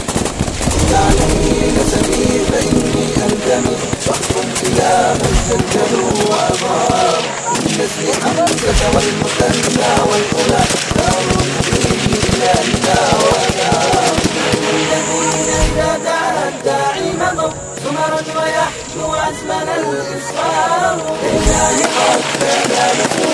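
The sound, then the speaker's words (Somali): Gunfire in an armed ambush on militia troops travelling the road between Buufo and Janaale district: loud, dense volleys of rapid shots crackle almost without pause throughout, with heavier thumps mixed in. “waxaana la arkayaa ciidamada mujaahidiinta oo rasaasta la dhacaya askarta murtadiinta”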